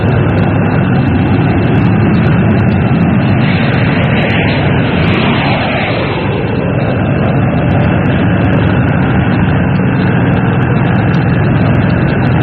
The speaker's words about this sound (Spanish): cinta asfáltica se deslizaba imponente el moderno jet, como blanco pájaro que escogiera la fría tarde para descansar de largo vuelo.